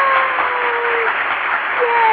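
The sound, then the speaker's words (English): Opening applause greets the start of an online talk show, a dense, loud, steady wash of clapping lasting about two seconds. “I can't tell you how much that just tickles me, that applause, that opening applause.”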